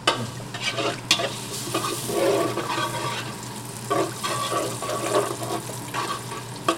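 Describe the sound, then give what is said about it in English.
Fresh breadcrumbs toasting in oil with five or six garlic cloves give a steady, bright sizzle. Scraping stirring strokes come through at irregular moments. “So then you're tossing the breadcrumbs into the oil and garlic. And we'll let the whole thing toast up together.”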